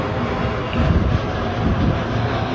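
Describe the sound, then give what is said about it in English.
An airplane flies over near an airport, a loud, steady low rumble that swells slightly midway, with no talking. “I'll just wait for a sec. I know there's an airport here.”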